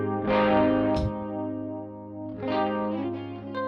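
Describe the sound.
Electric guitar on a single-coil pickup runs through a Richie Kotzen Fly Rig pedal blended with reverb, ringing out in sustained, shimmering chords over two phrases, the second swelling in after a softer dip.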